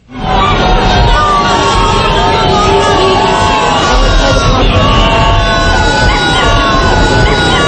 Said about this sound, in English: This is the sound of Virgie Arthur walking into her daughter's funeral and being booed and heckled.